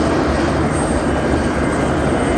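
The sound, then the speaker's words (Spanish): Helicopter landing in front of a hotel in Atlantic City: a loud, steady roar of rotor and engine noise that fills the whole clip without a break. “El helicóptero aterriza ante el Hotel Palazzo Azzurro en Atlantic City, Nueva Jersey.”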